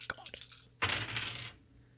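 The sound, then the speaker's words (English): Several small dice rattle as they are shaken and rolled: a few scattered light clicks, then a dense, bright clatter lasting under a second that gradually thins out. “we got the wild card die all in here, shaking up little dice ASMR for your Tuesday afternoon”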